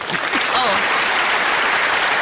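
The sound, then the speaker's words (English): Applause from a clapping audience, a dense and steady patter of many hands that stays loud and even from start to finish. “I have to get my clapping audience. Yes, your clapping audience.”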